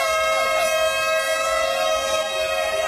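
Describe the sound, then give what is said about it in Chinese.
A horn blast signals the start of an annual cross-country run: one continuous, loud, steady tonal blast, rich in harmonics, that holds without a break for the whole stretch. “随着鸣笛发令，一年一度的卢沟桥醒狮越野跑活动开始。”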